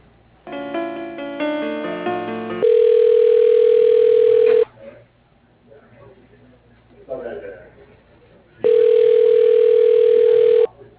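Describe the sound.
Telephone tones play as a call is transferred to voicemail: a short run of stepped melodic beeps, then two long, steady, loud tones of the same pitch separated by a quieter gap of faint noise.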